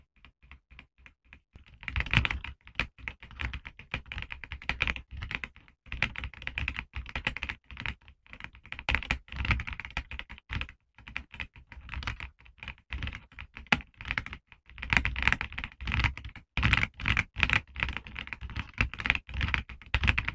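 Fast typing on a mechanical keyboard with Loga Thai Tea tactile switches: many crisp keystrokes come in dense bursts with brief pauses, and no voices.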